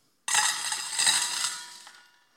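Coins are dropped into trumpet-shaped temple offering receptacles. An abrupt loud metallic clatter with a bright, ringing jingle carries on for over a second, then slowly dies away.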